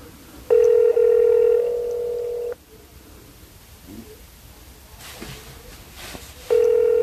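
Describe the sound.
A telephone ringing while calling someone: a steady electronic ring tone of about two seconds, then a pause of roughly four seconds with faint background noise. A second ring then begins and runs to the end.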